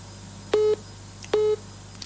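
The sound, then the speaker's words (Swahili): Busy tone on a phone line after a caller is cut off: two short, flat mid-pitched beeps of equal length, evenly spaced, over a faint steady low hum. “Naona simu yake imekatika hapo.”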